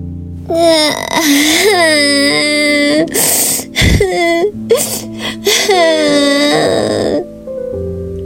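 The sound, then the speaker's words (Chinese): A voice imitates loud, exaggerated crying, as a big tree bursts into tears. Drawn-out wailing alternates with short, breathy sobs and gasps in several bursts, ending in one last long wail. “大树先哭了起来。”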